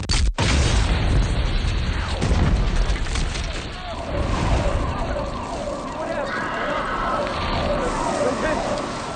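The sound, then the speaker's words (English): Bombs exploding at a marathon, a loud booming blast followed by sustained chaotic roaring noise and a rising wail like sirens, with voices mixed in underneath throughout. “And then the bombs go off.”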